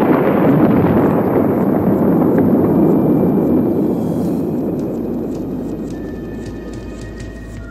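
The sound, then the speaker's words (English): A deep, continuous roar from a missile launch and nuclear explosions, a broad, rumbling blast of noise that starts loud and slowly fades away. “ignition. The Soviets would launch their missiles, and both countries would become a radioactive wilderness.”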